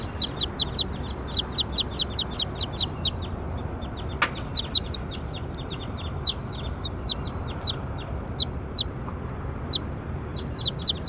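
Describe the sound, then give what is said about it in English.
Many short, high-pitched bird calls repeating in a quick, steady rhythm, each chirp sharp and clear above a low, rumbling background noise that continues throughout. “That was bird four.”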